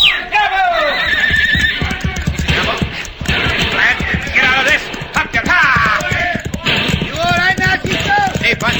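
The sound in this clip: Horses neigh loudly, giving several shrill whinnies with wavering, rising and falling pitch. The calls ring out over a busy, clattering background as riders prepare to gallop.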